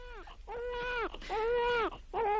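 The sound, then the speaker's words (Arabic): A boy crying: a few drawn-out, high, wavering wails that sag in pitch at their ends, separated by brief catches of breath. “يو بتعيط ليه يا عبد الحليم؟”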